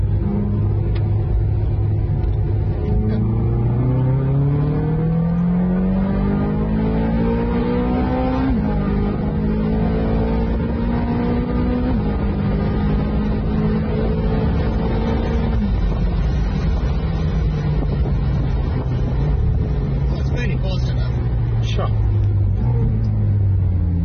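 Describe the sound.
An open-top car with the roof off accelerates hard out of a hairpin bend. Its engine note climbs in rising sweeps, with dips in pitch between them like gear changes. Steady wind rush runs underneath throughout.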